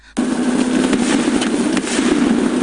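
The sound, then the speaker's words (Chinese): A string of firecrackers goes off in a forest, bursting in abruptly. Dense, rapid crackling stays loud and continuous throughout. “什么声音？ 点上放炮呢。”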